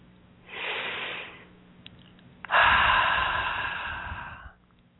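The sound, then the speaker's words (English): Deep, slow breathing during a guided relaxation session: a soft airy inhalation followed after a pause by a longer, heavier exhalation that fades out, heard alone. “two more nice deep breaths here.”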